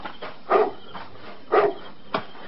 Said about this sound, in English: Now, what are you barking at? There's nothing out there in the dark, stupid dog.